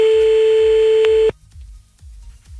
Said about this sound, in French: Bon, allez, on y va, on appelle.